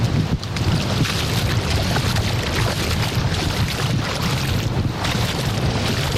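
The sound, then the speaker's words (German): Wind and water at a sandy island beach, with someone standing in the shallows: a loud, steady, unbroken roar of wind buffeting and rushing surf, filling the whole stretch without pause. “So, ihr hört das, oder? Ja. Vor genau einer Stunde sind wir losgeflogen und jetzt stehe ich mit den Füßen auf der Insel Jüst im Wasser.”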